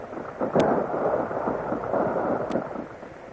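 A radio-drama battle effect of an artillery barrage rumbles as a steady, deep roar, broken by two sharp cracks a couple of seconds apart.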